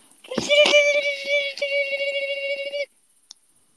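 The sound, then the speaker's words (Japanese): A voice imitates a baby cricket chirping with one high, squeaky, sustained tone that flutters slightly. It holds for about two and a half seconds, then stops abruptly. “コオロギの赤ちゃんがいる。 コオロギの赤ちゃんの声真似します。”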